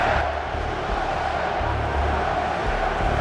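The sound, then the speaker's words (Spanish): A home crowd cheering on its team at a football match, a loud, continuous roar of massed voices that stays level throughout with no break or pause. “El público local alentando con todo.”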